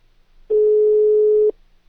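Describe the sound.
A telephone dial tone during dialing: one steady, mid-pitched tone that holds for about a second and then stops, with near silence before and after.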